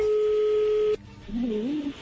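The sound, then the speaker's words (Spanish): Telephone tone as a call is placed: a steady, unbroken hum lasts about a second and cuts off abruptly, followed after a short gap by a fainter wavering tone. “A ver, ya entra ahí la llamada, no haga ruido.”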